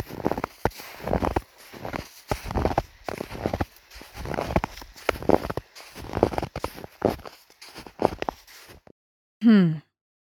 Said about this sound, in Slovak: Každopádne, mám rád tatranský sneh. Ten zvuk, keď vrzga pod nohami.